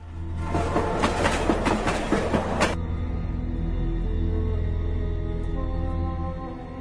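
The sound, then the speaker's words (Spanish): A passing train gives a loud, rattling clatter with regular rhythmic clicks for the first few seconds. The bright clatter then stops abruptly, leaving a steady low rumble that gradually fades. “a poco que vieras un tren así, aunque fuera aquel, pues te creías que estás viendo un tren fantasma, de lo bonito que era, alucinante. Ahí está pasando.”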